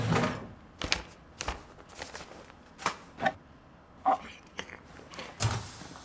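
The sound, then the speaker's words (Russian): A girl tastes food from a small packet, giving faint, irregular crinkles and many sharp little bites and clicks in a quiet setting. “Девочка обыскивает ящички в стенах. Находит пакетик с едой. Пробует.”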